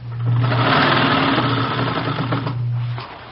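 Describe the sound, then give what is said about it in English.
Sewing machine running while rows of ruffles are sewn: a steady, buzzing mechanical whir with a low hum underneath, holding at an even level for about three seconds before stopping. “Well, I've got this sewing to do. You can see that, can't you? Three more rows of ruffles go on. Right here.”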